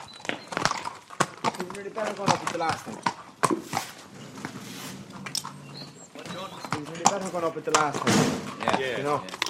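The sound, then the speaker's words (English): Hoofbeats of a horse fitted with a new bit, rhythmic clip-clop strikes repeating over several seconds while people talk over them. “Nice galloping.”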